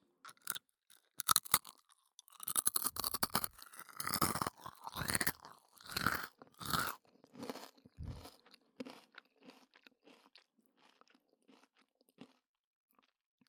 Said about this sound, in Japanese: 普通のノーマルおせんべい部分は軽快な音でしょう。